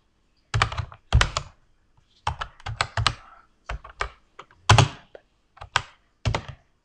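A computer keyboard clacks as a command is typed into a game, in short bursts of crisp keystrokes separated by brief pauses, with many taps in all.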